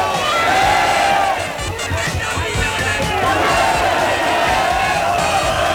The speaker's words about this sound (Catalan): Aquest era el so de milers de persones que s'han reunit, per exemple, a la plaça Catalunya de Barcelona.